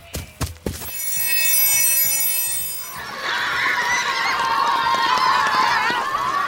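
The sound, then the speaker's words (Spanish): A school bell rings with a steady, sustained tone for about two seconds after a few sharp knocks, followed by a busy noise of many voices. “vamos rápido que van a tocar la campana.”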